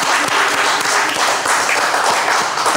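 Audience applause, a loud, dense and sustained burst of many hands clapping at once.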